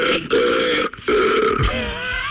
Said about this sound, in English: So, 22 times he called 911 just to burp at them. Just to burp.